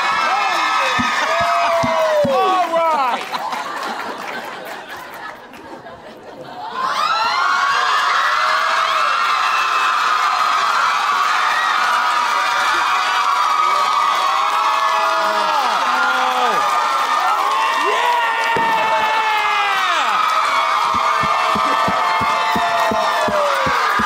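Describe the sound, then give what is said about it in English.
A game-show audience cheers, whoops and shouts loudly in a sustained roar that dips briefly, then surges back and holds at full strength to the end. “Give it up for the new Matt.”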